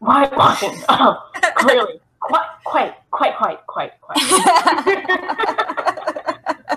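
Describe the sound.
A person clears their throat with a few rough, scratchy bursts that sound close to coughing, mixed in among stretches of talking.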